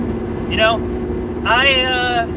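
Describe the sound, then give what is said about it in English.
Steady low engine and road rumble from a car driving along a road, running continuously beneath a person talking. “Just driving along here. And I saw a trail sign.”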